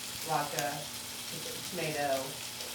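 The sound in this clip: A steak sizzling as it cooks in a pan: a steady, faint hiss and crackle of frying fat that runs without a break, with small swells in loudness.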